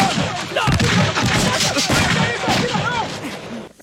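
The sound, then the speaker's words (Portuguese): Gunfire rattles through a police shootout in a dubbed film, with many sharp, loud reports in rapid, uneven succession that keep the whole scene dense and forceful. “AR-2, solicita mais 4 unidades. Troca de tiros.”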